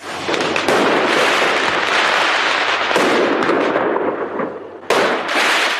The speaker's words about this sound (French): Les tirs de mortier d'artifice éclatent hier soir à Villeneuve-la-Garenne pour la deuxième nuit consécutive.